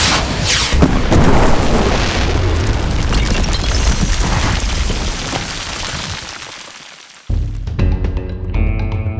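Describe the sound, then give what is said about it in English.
A loud booming explosion as homemade firework rockets blow up a roof. The broad roaring blast rumbles and slowly fades over several seconds, then cuts off abruptly into a short, different, tonal noise. “We can use these to blow the roof up.”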